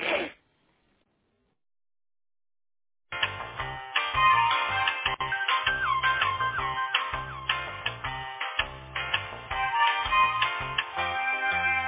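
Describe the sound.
A melodic phone-line tone plays while a call about a lost internet connection is transferred to tech support. It starts after about three seconds of silence and continues steadily with repeating notes.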